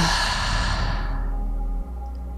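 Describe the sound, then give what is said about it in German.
A deep, breathy exhale follows a full inhalation during a guided breathing exercise, a long airy sigh that starts loud and fades steadily to near silence over about a second and a half, with no talking. “Und noch einmal ganz tief einatmen. Und alles rauslassen.”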